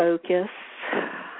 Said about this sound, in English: So I invite you to close your eyes and take a deep breath with me.